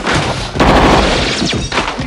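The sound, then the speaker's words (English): Staged gunfire rings out in an audio drama shootout in a bar, with shots fired wildly. Loud booming blasts and crashing impacts follow one another in close, irregular bursts that fill the whole clip. “Rocker fires as Baxter cowers. Mark crawls along the floor. Petrovita fires wildly.”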